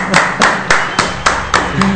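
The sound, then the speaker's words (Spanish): Seven loud, sharp hand claps at a slow, even pace, given after a call for applause, each clap ringing briefly before the next. “¡Un aplauso, por favor!”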